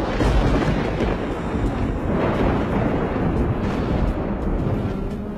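Thunder rolls from a lightning strike as dark clouds gather. A dense, loud, continuous rumbling roar holds steady throughout, with no distinct separate claps.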